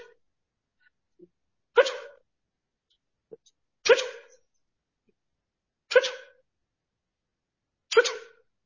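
A person burps during a prayer session: four forceful bursts come about two seconds apart, each sharp at the start and quickly fading. A few fainter, very short sounds fall between them.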